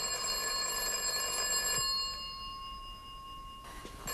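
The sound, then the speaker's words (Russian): A telephone bell rings inside a family home, a steady metallic ring that sustains through the whole stretch and eases slightly in level partway through. “Это Макгайр. Он обещал мне позвонить. Алло?”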